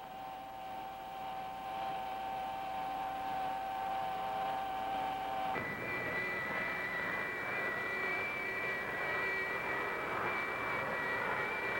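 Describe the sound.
Engine thrust is turned up to change a station's orbit. A steady, noisy roar carries a whine that jumps to a higher, brighter pitch about halfway through and then holds there.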